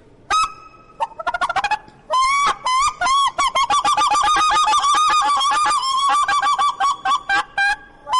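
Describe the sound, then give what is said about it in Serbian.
A handheld goose call device imitates goose honking, giving loud, nasal honks, first in a few quick bursts and then in a long, fast run of steady repeated calls with no other sound. “Imate još neku drugu spravu? Uf. Ajde neku drugu životinju da dozovemo još nešto. Da dozovemo gusku.”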